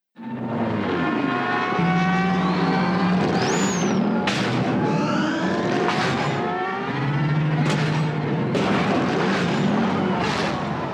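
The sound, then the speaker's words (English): Futuristic racing pods roar and whine at the end of a race as they lock together, with train-coupling sounds for the clash. A loud, steady engine drone with shifting tones runs throughout, broken by a few sharp metallic clanks. “at the moment at the end of the race when their pods kind of locked together, kind of as a homage to Ben-Hur, there is train couplings”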